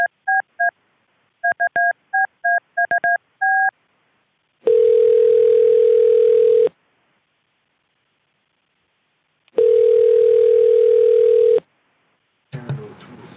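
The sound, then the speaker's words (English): A telephone call is being placed: a quick series of touch-tone keypad beeps sounds first, followed by two long, steady ringback tones separated by silence, then a brief faint noise at the end. “Okay, calling the number now. One moment.”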